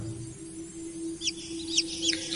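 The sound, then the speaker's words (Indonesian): Faint, high-pitched cheeping of a neighbour's chicks, a few short chirps in the second half over a steady low hum. “Suara anak ayam itu mungkin berasal dari tetangga sebelah.”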